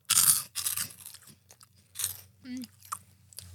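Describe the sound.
Loud crunching and chewing of crunchy, spicy snack balls crammed in a mouthful at once: irregular crisp bites and wet chomps, with a brief vocal murmur partway through.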